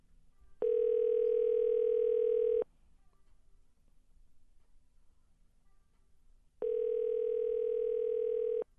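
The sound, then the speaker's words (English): A telephone dial tone, odd and unlike a real one, sounds as two steady, even buzzing tones of about two seconds each. A quiet gap with faint background noise separates them. “Which dialing tune is this one now? I don't know. Doesn't sound like a real one.”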